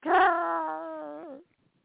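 A dog gives one drawn-out whimper, a high, tonal whine lasting about a second and a half that wavers slightly and bends near the end before cutting off into silence.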